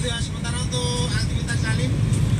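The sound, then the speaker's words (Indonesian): Busy road traffic on the Gombel descent in Semarang, with cars and buses blending into a continuous, fairly loud low rumble of engines and tyres that holds steady throughout. “Sementara kedua arahnya ramai lancar ya Bun. Seperti ini Bun. Kondisi di turunan Gombel.”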